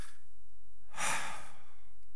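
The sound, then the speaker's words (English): A single deep breath taken during a spoken prayer, heard as one short, breathy rush of air rising out of an otherwise quiet stretch. “taking a deep breath”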